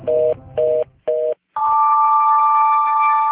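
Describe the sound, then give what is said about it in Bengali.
A telephone hung up mid-conversation: three short, even beeps, a brief silence, then a steady, unbroken dial tone that holds loudly to the end. “কথা শেষ না করে phone রেখে দেয়”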